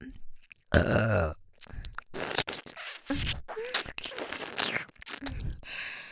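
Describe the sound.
A crude, deliberate burp made close to the ear, with a low, rough belch early on followed by further short throaty, breathy sounds separated by brief silences.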